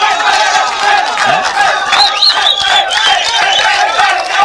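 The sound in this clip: Crowd cheering and shouting bravo: loud, dense rising and falling cries and yells, continuous throughout.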